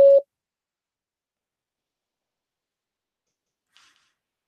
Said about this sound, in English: Please record your invitation for this caller to join you in a private conversation. Record after the tone. Hit any key when you're done.